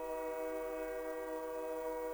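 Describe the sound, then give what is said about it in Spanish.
A train passes, sounding as a loud, steady, horn-like tone with stacked harmonics that holds unchanged and unbroken for the full two seconds. “Fun fact, está pasando el pinche tren cuando estoy grabando.”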